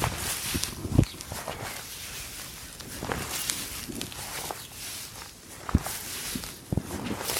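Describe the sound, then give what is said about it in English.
Barefoot footsteps climbing a hill outdoors: soft, irregular thuds of bare feet on the ground, with a few sharper steps over a constant rushing background. “I go for barefoot walks that I take my shoes with me. Sort of a safety net. But I think today we're just going to leave them here at the bottom of the hill and start to climb.”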